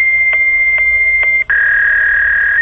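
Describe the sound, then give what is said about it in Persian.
Fax machine dialing and connection tones: a steady, high electronic tone with three short pulses, a brief break, then a slightly shifted continuous tone. “فراموش نکردید چطور حجت یا ورق ها را با فاکس می گذاشتید، شماره تلفن فاکس را می گرفتید و بعد از یک صدای آشنا”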